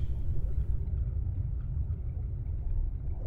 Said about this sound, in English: Look, I don't see anything. It's possible that it was just shifting stones.